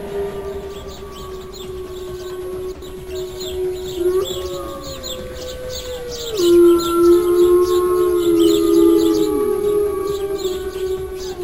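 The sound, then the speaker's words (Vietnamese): A bone flute blown forcefully gives sustained, piercing whistle-like tones that waver and glide up and down, with a fainter higher tone layered above. It grows louder and more strident in the second half. “đưa chiếc sáo xương lên miệng, vận hết sức lực toàn thân, thổi mạnh lên một tiếng.”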